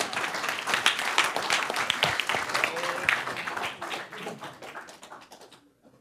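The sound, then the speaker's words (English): Audience applause welcoming a speaker, dense and lively clapping that holds strong for several seconds, then gradually thins and fades away. “put your hands together and give him a really big warm welcome, because he's going to be teaching us this morning”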